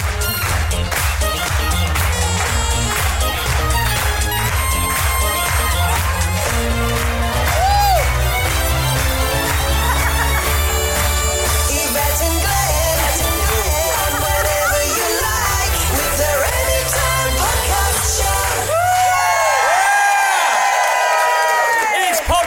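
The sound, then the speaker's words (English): A full house at the Phoenix Club Malta cheers and whoops over loud, continuous music, the crowd noise blending into a constant dense roar. “From the Phoenix Club Malta! Wow, and we've got a full house!”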